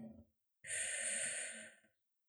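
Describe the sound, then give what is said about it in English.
One slow, soft inhale through the nose and mouth during a guided meditation, a faint airy breath that swells and holds for over a second before fading out, with no voice. “Breathe in.”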